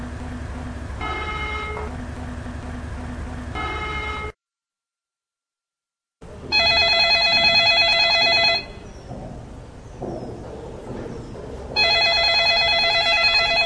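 An outgoing phone call rings unanswered. Repeated electronic ring tones come in bursts, with a stretch of silence partway through before the rings resume.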